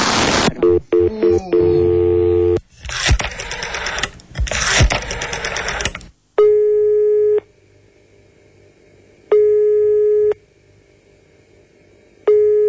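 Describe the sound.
A telephone call is placed: a noisy burst of rapid dialing clatter and tones, then a steady ringback tone pulsing three times in even on-off beats, the last cut short.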